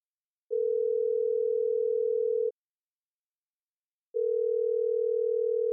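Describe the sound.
A telephone line tone heard as the receiver is put down: a steady, pure mid-pitched hum sounding in two long stretches of about two seconds each, split by a silent gap, with no voices.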